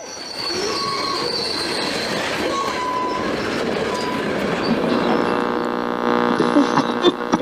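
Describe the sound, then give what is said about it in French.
A 91-car Canadian National freight train rolls into a level crossing in a village centre: a loud, steady rumble of wagons with shrill wheel squeals, a droning hum building in the second half, and a few clanks near the end. “un convoi ferroviaire, comme il en passe tous les jours dans la municipalité, arrive au passage à niveau, en plein cœur du village”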